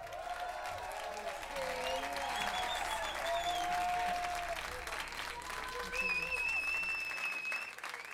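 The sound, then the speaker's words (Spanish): Steady audience applause welcomes a guest singer onto a popular news program, a dense, even roar of clapping that holds at full strength for the whole eight seconds, with some voices in the crowd. “Un aplauso para Eugenia León.”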